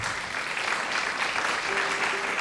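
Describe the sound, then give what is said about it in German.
Steady applause from a concert audience, dense and even throughout with no voices standing out, loud and continuous for the whole stretch. “Applaus.”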